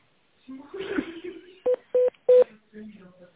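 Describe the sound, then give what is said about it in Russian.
Telephone keypad tones on an automated phone line: three short, steady beeps in quick succession, with speech just before and after them. “Для отправки факса нажмите единицу или дождитесь ответа секретаря.”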